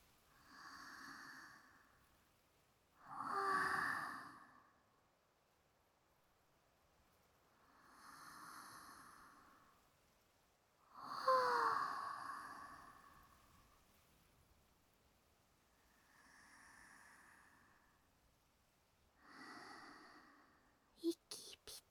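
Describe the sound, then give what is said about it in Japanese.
Slow, deep breathing in and out, several soft airy swells spaced a few seconds apart, gentle and faint against quiet. “一緒に深呼吸してみましょうか。”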